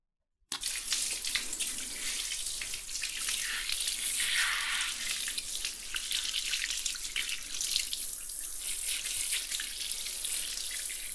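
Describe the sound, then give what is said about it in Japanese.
Water running to rinse: a dense, hissing flow that starts abruptly after a brief silence and continues loud and steady with no pauses. “流しますね。”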